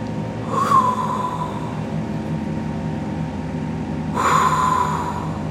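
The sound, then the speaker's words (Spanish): Two forceful breaths are pushed through a wide-open mouth with the teeth apart. Each rushes out as a short, harsh blast, spaced a few seconds apart over a steady low background hum. “Abre tu boca y empieza a respirar con fuerza a través de ella.”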